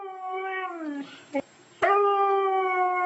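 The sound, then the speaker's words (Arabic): A dog howling in imitation of a wolf gives two long, tonal howls separated by a short pause. The first howl droops gently in pitch before breaking off, and a brief yelp fills the gap before the second howl resumes strongly. “وبعدين شويه يقلد الذئب وهو كلب.”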